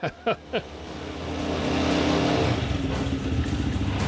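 An old car engine with a tax tag dated February 1967 and about 11,000 km on it: three sharp bursts, then the motor catches and rises into a loud, steady, rumbling idle with revving.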